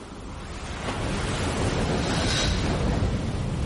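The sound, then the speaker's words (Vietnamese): Waves crashing on a deserted beach make a steady, loud, roaring wash of surf that holds at an even level throughout, with no voices. “Tôi thấy mình đang đứng trước một bãi biển hoang vu với tiếng sóng vỗ rền rào.”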